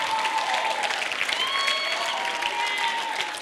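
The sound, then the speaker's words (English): Steady applause from an audience at a church youth night, thanking the venue team: dense, sustained clapping from start to finish. “can we just put our hands together in just a moment for the team here at Gateway and Pastor Singe for letting us have this incredible venue tonight.”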